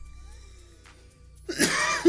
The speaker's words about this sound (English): I took another dabski. I shouldn't have. I'm sorry if I coughed in your ear.